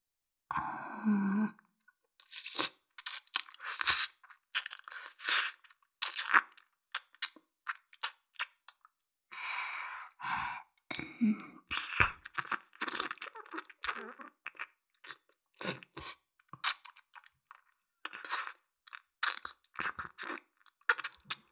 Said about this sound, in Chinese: 么差不多该换另一边耳朵了。这边也要舔了。